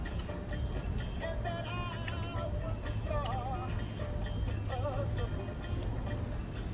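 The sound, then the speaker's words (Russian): A car driving Kenny and Kay to a valley gives off a steady, low engine rumble throughout, with faint wavering melodic tones drifting above it. “Кенни едет с Кей на машине в долину.”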